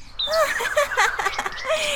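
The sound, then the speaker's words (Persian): Nightingale singing, a quick run of high, warbling chirps and whistled notes that rise and fall in short phrases, clear and fairly loud with no talk. “بلبل از بوی گل شاد شد و شروع به خواندن کرد.”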